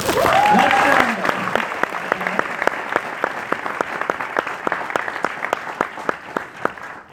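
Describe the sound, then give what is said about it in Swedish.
An audience applauds at a live talk by a former Olympic medalist, many claps blending into sustained, fairly loud applause that eases slightly toward the end, with a voice briefly heard at the start. “En stor applåd!”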